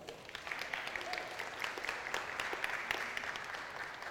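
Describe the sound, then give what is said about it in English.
An audience applauds to welcome its pastor, a steady wash of many hands clapping at an even level from start to finish, with no speech over it. “I know we're not the most like applaudy place, but let's pretend that we are, okay?”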